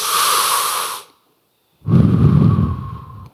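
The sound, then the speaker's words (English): A deep breath, loud and close: one long airy breath, then a brief silence, then a second long, lower-pitched breath. “Now, just for a second, breathe with me. Take a deep breath.”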